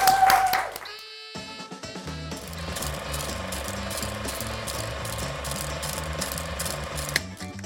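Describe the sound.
An old 1920s-style film projector rattle effect: a brief voice gives way to a rapid, steady mechanical clicking and whirring that runs to the end, with sustained tonal notes beneath it.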